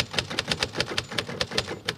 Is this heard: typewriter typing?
yes